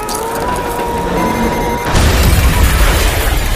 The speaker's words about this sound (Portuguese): Ele explode, cara, com uma puta que pariu, uma mega explosão.